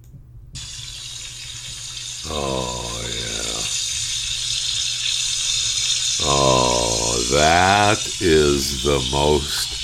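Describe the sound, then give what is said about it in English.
Bacon sizzles in a frying pan with a constant bright hiss that runs unbroken from start to finish, while a man's voice speaks over it in a few phrases. “That's the sound of the best bacon ever cooking in a frying pan.”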